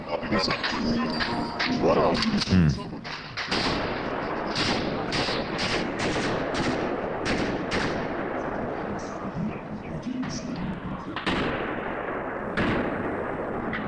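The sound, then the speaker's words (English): Gunfire recorded inside Crocus City Hall in Moscow during the ISIS-K terrorist attack: many sharp shots in rapid bursts and single cracks over a dense, noisy background, with voices underneath. “Shocking video released by the Islamic State-affiliated Amaq News Agency shows ISIS-K terrorists firing their guns through Crocus City Hall in Moscow”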